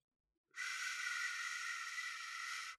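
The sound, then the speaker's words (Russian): A loud, sharp hiss like a provoked cobra bursts in abruptly and holds at an even, breathy intensity for about two seconds before cutting off. “Громкое шипение, словно наступили на кобру.”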